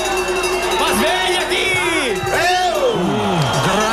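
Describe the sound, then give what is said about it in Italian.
A football crowd cheers at a match in a loud, unbroken roar, with rising and falling whoops and whistles cutting through it and a voice talking over the noise. “senti il pubblico”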